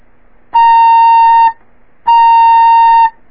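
A fife plays a tongued low C sharp twice: two clean, loud, steady high notes of about a second each, bright with overtones, each starting crisply and separated by a short silence.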